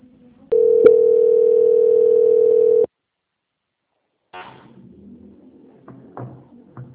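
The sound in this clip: A telephone line tone plays while a call is held and transferred to a quality-control agent. One steady, loud, mid-pitched tone lasts about two seconds, then cuts to silence, followed by faint, muffled line noise.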